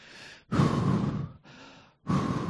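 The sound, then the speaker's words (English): A man pants heavily as he catches his breath after running from a battle, with four loud, rough breaths alternating between longer and shorter draws and no speech. “Trying to catch his breath, the man tells Eli,”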